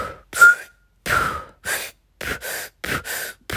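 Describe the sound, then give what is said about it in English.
Forceful free diving breathe-up breaths, big exhales and inhales in a string of loud, rushing bursts with a whistling edge, coming in a quick rhythm separated by brief pauses, with no talking. “when you're ready to release, do a big exhale and then inhale big time”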